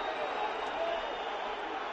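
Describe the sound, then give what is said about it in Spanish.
A crowd in a basketball arena reacts to a perceived foul during a Barcelona versus Real Madrid game, a steady, dense roar of many voices holding at an even level throughout. “El público se mosquea porque entiende que hay una falta sobre Hanga.”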